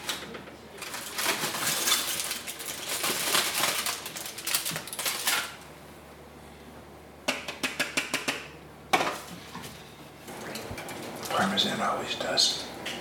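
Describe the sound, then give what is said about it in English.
Tin foil crinkling as it is put back over a dish of sticky spatchcocked chicken topped with grated parmesan: bursts of crackly rustling come in short clusters between stretches of talk. “I'm just going to spread it over the top, and I'm going to put the tin foil back on.”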